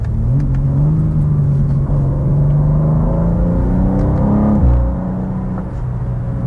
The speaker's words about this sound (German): Beim Runterschalten oder vom Gas gehen gibt es so ein Auspuffbrabbeln.